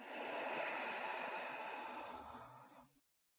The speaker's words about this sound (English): Good. Do that one more time. Breathe in and out.